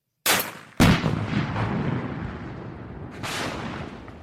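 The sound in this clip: .50 caliber gun firing in a political ad: three loud booming shots, two in quick succession and a third about two and a half seconds later, each trailing a long rumbling decay.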